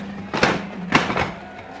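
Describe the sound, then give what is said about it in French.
Dull wooden knocks and scrapes sound as a seat is shoved against a door to barricade it, a radio drama sound effect: three muffled thuds over a low, steady hum. “Laissez-moi barricader la porte. Passez-moi ce siège.”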